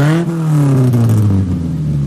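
Rally car fitted with a new engine pulling away, a loud steady tonal engine drone that drifts slightly lower in pitch over two seconds.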